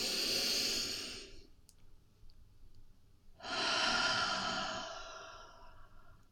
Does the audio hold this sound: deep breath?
yes

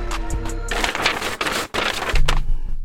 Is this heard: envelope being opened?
yes

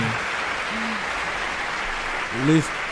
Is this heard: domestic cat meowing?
no

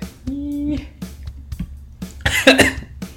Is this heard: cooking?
no

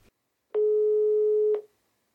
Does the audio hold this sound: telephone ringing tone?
yes

